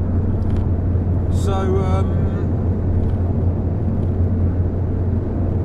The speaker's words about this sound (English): I hope this is coming through well, because I am driving right now.